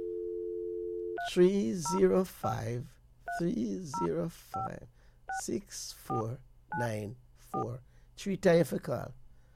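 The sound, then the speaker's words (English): A telephone number dialed on a keypad: a steady dial tone, then many quick two-tone touch-tone beeps in an uneven rhythm, with a voice talking over and between them. “Always call it again. So let's dial it again”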